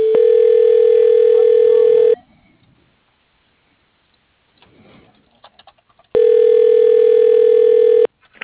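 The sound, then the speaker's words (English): Telephone ringback tone while a call is being transferred: two steady, buzzing tones of about two seconds each, separated by roughly four seconds of near silence with a few faint clicks. “Please hold while your call is being transferred to...”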